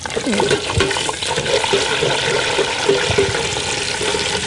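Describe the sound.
Edible insects deep-frying in oil with a pinch of salt give a steady, dense sizzling hiss throughout, with a voice briefly audible near the start.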